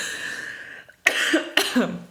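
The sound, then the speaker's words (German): Two harsh coughs from one person in quick succession, each bursting out abruptly and trailing into a throaty, voiced rasp, after a moment of near silence. “Da musst du direkt husten.”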